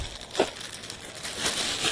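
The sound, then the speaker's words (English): A plastic bag tears away along with packing tape and is tossed into a shipping carton, giving soft crinkling rustles with a few sharper crackles, fairly quiet throughout. “it looks like the bag is tearing along with the tape. So, bye-bye plastic bag.”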